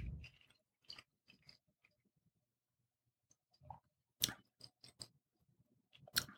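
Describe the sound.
Spicy meat being chewed and bitten, giving sparse soft clicks and crunches separated by quiet gaps, with a few sharper, louder bites toward the end.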